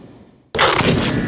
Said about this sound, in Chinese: 海拔4200米的雪域高原，炮声在山谷中阵阵回响。